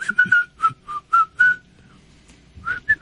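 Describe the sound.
A person whistles a tune in clear, bright notes: a quick run of several notes, a short pause, then a few more notes, loud and alone with no talking.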